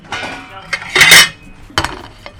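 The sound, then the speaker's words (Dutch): Dishes and cutlery clink as a plate is taken from a stack while bread with bacon and pear is prepared; a few sharp, bright clinks, with a louder rattling burst in the middle, then lighter taps. “Ik zal alvast een bord pakken.”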